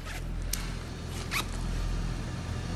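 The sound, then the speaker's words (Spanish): A zipper is pulled down in a few quick raspy bursts, each short and bright, over a steady low hum. “Te bajas la cremallera.”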